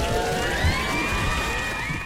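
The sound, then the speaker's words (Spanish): An audience cheers at a call to applaud again, a loud, continuous mix of shouting and whooping voices, including high-pitched ones, sustained throughout. “Muy bien, oigan, vuélvanle a dar unos aplausos.”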